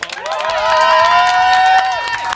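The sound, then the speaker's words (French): Loud, sustained cheering and applause from a live stage audience greet the start of a season-finale show. The crowd noise holds steady throughout, then eases slightly at the very end. “c'est sous une ambiance électrique ce soir que l'on se retrouve sous des applaudissements à n'en plus finir.”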